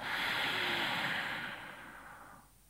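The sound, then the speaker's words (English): Nasal breathing during a guided relaxation exercise: a steady, airy rush of breath through the nose holds strong for about a second and a half, then gradually fades away. “And then exhale. This is in through your nose and out through your nose.”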